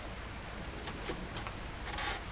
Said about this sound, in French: Mais si, il pleut trop de façon.